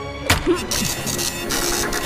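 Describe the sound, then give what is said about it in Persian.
A printer runs with a steady mechanical whirr, a few sharp clicks and knocks near the start, then an even, droning hum. “فکر کنم اینم صدای پرینتر من بود.”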